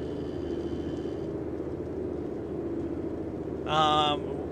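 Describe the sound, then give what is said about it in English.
Low engine rumble heard from inside a car driving a back road, a steady, droning hum that holds evenly throughout, with a brief voice breaking in near the end. “Oh, here's something new. I'm driving right now.”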